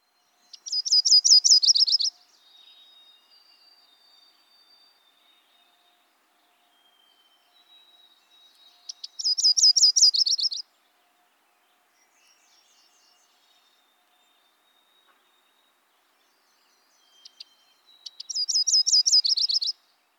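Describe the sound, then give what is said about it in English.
Myrtle warbler song: three high, rapid trilled phrases, each about a second and a half long, separated by long quiet gaps with faint thin high notes between them. “And here is what a Myrtle song sounds like.”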